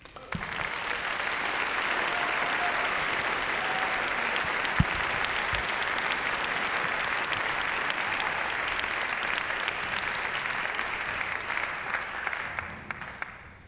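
Sustained applause as an audience welcomes musicians before an evening performance. The dense, even clapping runs loud and steady for over twelve seconds, then tapers off at the very end.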